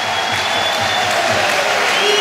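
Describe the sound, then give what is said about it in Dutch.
A football stadium crowd applauds as Promise David comes on as a substitute for Union in a Jupiler Pro League match after his injury. The applause is loud and continuous and swells slightly toward the end. “Luid applaus voor de man die op het WK was na zijn blessure.”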